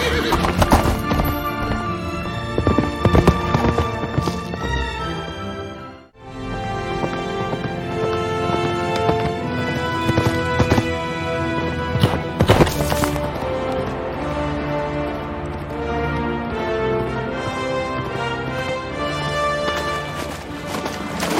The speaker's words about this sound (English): Run, Shadowfax. Show us the meaning of haste.